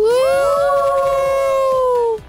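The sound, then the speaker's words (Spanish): Several voices scream together in one long, loud shriek for a children's programme about mischief, rising at the start and then holding a steady high pitch for about two seconds before it cuts off. “¡Qué bonito gritamos, ¿verdad?”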